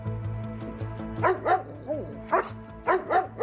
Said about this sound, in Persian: آروم باش، آروم. احتمالاً بوی سگ همسایه رو فهمیده.